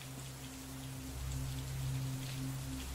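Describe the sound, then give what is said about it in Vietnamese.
Heavy rain pours down in a steady, dense hiss that never lets up across the whole stretch, swelling slightly louder after the first second, with no voices. “Nhanh lắm, mưa đổ rào rào”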